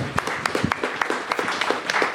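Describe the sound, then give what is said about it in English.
An audience applauds at a panel discussion, with many scattered hand claps in an uneven rhythm, moderately loud and sustained throughout. “I'm going to clap for that. We all can.”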